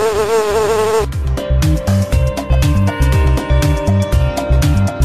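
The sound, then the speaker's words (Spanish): A bee buzzes in a loud, rich drone whose tone wavers at first, then carries on in a steady pulsing rhythm to the end. “No soy florista, pero vivo entre las flores y, aunque me resista, el hombre me arrebata mis dulces labores. ¿Quién soy? ¡La abeja!”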